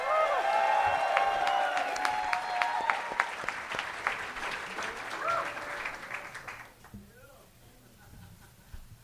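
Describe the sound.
Loud cheering and applause from a live stand-up comedy audience as a comedian is called to the stage: a dense, continuous roar of clapping with whoops that eases after about six and a half seconds into scattered claps.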